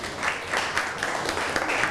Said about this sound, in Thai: ปรบมือให้กับเพื่อนครับ